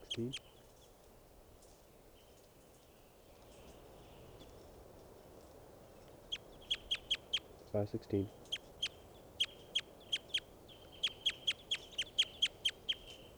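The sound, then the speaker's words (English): Bird song: many short, high chirps arriving in quick, rhythmic runs after a quiet opening, preceded by a brief low burst at the very start. “Recording this bird”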